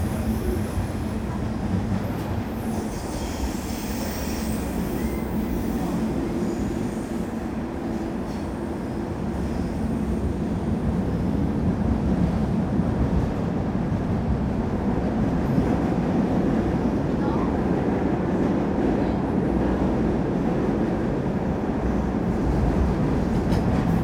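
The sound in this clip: Rio de Janeiro metro train running between stations near Botafogo, with a steady, loud rumble and rattle of wheels and carriage that fills the whole clip without pause. No voices are heard.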